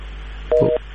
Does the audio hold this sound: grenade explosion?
no

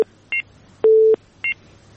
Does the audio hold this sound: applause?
no

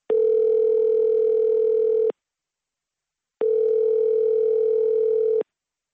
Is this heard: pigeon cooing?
no

